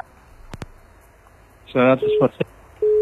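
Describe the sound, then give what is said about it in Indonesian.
A disconnected call-in telephone line: two sharp clicks, then a brief garbled, voice-like burst, followed by loud, steady busy-tone pulses with short gaps between them. “Halo LDR. Ya, terputus.”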